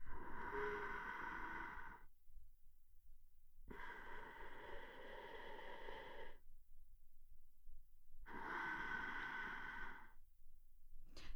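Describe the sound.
Slow paced breathing in a breathing exercise for managing emotions: three long, faint breaths of about two seconds each, separated by silent pauses, with no talk.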